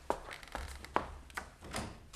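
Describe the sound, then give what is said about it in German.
Knocking on a door: several soft, evenly spaced knocks, faint over a low background hiss, with no talking. “Da klopft doch jemand. Ich gehe mal hin.”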